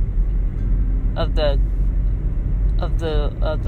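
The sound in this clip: A car is driven, heard from inside as a steady low road rumble that runs throughout while a person talks over it.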